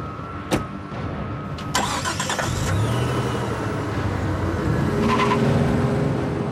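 An expensive car's engine starts after a sharp click and then runs with a steady mid-pitched hum as the car drives off, with a brief scraping burst near the end.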